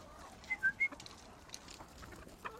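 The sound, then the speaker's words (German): A person gives three quick, high whistles to call backyard chickens in a small garden, and a few faint bird sounds follow afterward. “Hey Birds. Hey Hühner. Jetzt quäle ich sie, weil ich pfeife, aber es kein Futter gibt.”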